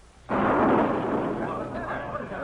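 A loud explosive boom erupts as a pirate ship attacks a vessel in town, with one sharp onset followed by a heavy, roaring rumble that slowly decays.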